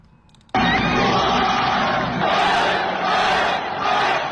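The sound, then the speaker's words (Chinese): Football fans roar and cheer after an away comeback win by Beijing Guoan over league leaders Shanghai SIPG; a loud, dense crowd roar bursts in after a brief quiet start and holds steady, swelling in a few surges. “客场逆转击败领头羊上海上港，国安队的队员们和远征客场的球迷们纵情的欢呼。”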